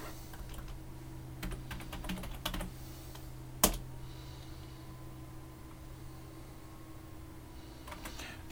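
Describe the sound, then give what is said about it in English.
Keystrokes on a computer keyboard as a command is typed at a server console: soft, scattered clicks in short bursts with one sharper tap, over a steady low hum. “If I now type get module,”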